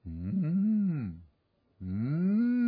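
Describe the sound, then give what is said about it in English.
Cattle lowing in two long, deep, harmonic moos, the first arching up and then down, followed by a short silence before the second call, which is cut off at the end. “I don't know if that's what cows sound like, but he heard this lowing.”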